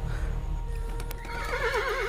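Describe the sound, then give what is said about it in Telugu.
Many horses galloping up and halting in front of a guest house, with dense clip-clop hoofbeats under a low rumble, then a loud, wavering neigh that rises over the noise near the end. “రూపాకి ఎలా అనిపిస్తుందంటే చాలా గుర్రాలు ఒకేసారి సవారీ చేస్తూ ఏకంగా guest house ముందు ఆగినట్టు”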